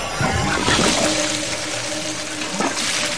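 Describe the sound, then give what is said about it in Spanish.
Water runs from a bathtub tap while the heater and pipes tremble, a steady rushing splash with a low, steady tonal hum beneath it. “Edith abre el grifo de una bañera. El calentador y las tuberías tiemblan. Del grifo sale agua roja.”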